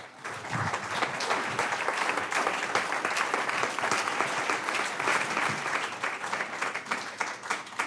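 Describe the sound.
Sustained applause from an audience at the Fayetteville Public Library welcoming a musician. Dense clapping holds steady for about eight seconds and eases slightly at the very end.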